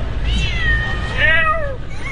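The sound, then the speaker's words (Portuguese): Cat meowing in response after a person imitates a meow toward it: a couple of clear, drawn-out meows, fairly loud and alone. “faz assim um nhão em direção a um gato e o gato responde ao Cristiano Ronaldo.”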